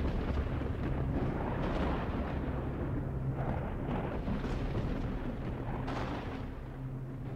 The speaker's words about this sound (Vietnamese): Bất ngờ tia sét thứ hai đánh thẳng vào tích trượng, phát ra tiếng nổ đinh tai nhức óc.